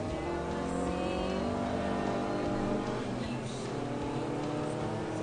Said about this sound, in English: Well, that wasn't a replay. That was just the car kept driving around doing his victory lap.